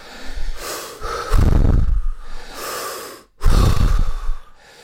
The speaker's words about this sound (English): Let's do 10 mouth breaths, all the way in, all the way out.